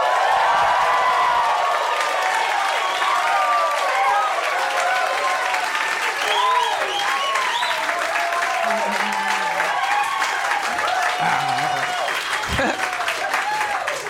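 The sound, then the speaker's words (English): Live audience of about 200 people cheering and applauding at the Hollywood Improv, a loud, continuous roar of clapping and cheers with a voice talking over it. “we are recording in front of a live audience at the Hollywood Improv. Say hello.”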